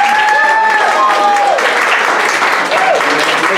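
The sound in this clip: Audience applause welcomes a speaker at a book reading, a steady, dense clapping that holds at an even loudness throughout, with a voice faintly audible over it.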